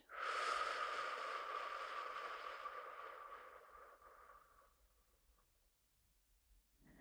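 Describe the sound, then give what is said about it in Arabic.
A long exhalation through the mouth during a guided breathing exercise, a soft breathy rush of air that starts strongly and then gradually fades over about five seconds. It stays quiet throughout. “نحبس، زفير من الفم.”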